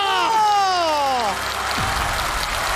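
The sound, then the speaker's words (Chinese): A voice gives a falling, drawn-out exclamation, then an audience breaks into about a second of applause after a Rubik's cube feat on stage. “这个要再来一个， 要掌声啊， 掌声”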